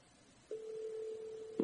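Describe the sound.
A telephone tone sounds while a number is being called: silence, then one steady, unbroken mid-pitched tone held for about a second before it cuts off with a brief click.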